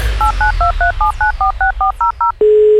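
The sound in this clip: Touch-tone telephone dialing for a call: eleven quick, evenly spaced beeps in a steady rhythm, then a sustained lower tone that holds to the end, loud and clear with no talk.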